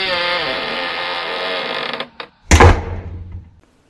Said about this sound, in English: Open it then. I'm trying. We'll get the key. I am using the key. Got the one. Yeah, there we go.